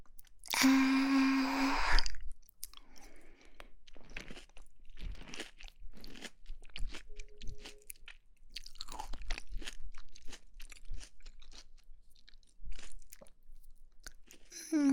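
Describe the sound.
Crunchy food being chewed in many quick, crisp bites with a steady, uneven rhythm. A short tonal sound comes at the start, and no clear talk is heard.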